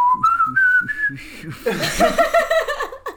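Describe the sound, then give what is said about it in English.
Someone whistles a theme tune over a chess game. A clear melody of sustained notes steps upward, then more whistled phrases follow with light chuckling and other voices mixed in. “Whistle one more time.”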